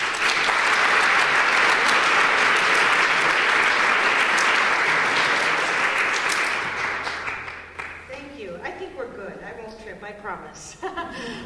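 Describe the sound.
Warm audience applause welcomes a guest author to the stage at a CABE educators' event. Dense, loud clapping is sustained for several seconds, then thins and fades as a voice begins speaking over the last scattered claps.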